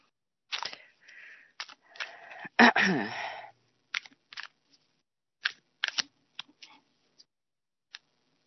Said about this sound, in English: So I'm now pulling cards for both Jim Jones and Flippy, because I've pulled the first card and then I pull cards from the other decks.